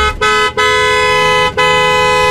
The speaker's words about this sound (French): Bah oui, effectivement, c'est bien un klaxon. Tu vois, je dirais même dans un embouteillage ou voilà.